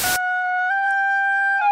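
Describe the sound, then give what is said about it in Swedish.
A simple homemade bagpipe built with a recorder plays one steady, reedy sustained note rich in overtones. It holds evenly after a short burst of noise at the start. “Ja, fantastiskt heliga toner. Det där, det är en enkel säckpipa. Det är ganska lätt att bygga en sån här.”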